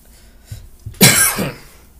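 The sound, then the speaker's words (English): A single harsh cough bursts out loud and brief after a quiet moment, trailing off in a softer rasping tail, with a couple of faint thumps just before it. “Excuse me. Sorry for coughing.”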